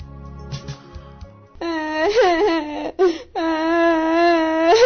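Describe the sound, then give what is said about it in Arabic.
A girl cries in a radio drama, with high, wavering sobbing wails that begin after a quieter opening and run in two long stretches split by a brief break. “يا بنت تعالي يا بنت، مالك بتبكي؟”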